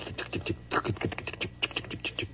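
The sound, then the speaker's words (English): A voice imitates railroad telegraph sounders with a rapid, irregular run of dry clicks and clacks, like clattering keys, and no words are spoken. “And all along the walls, in these little wooden things, were the sounders. Have you ever heard these sounders going? They just go...”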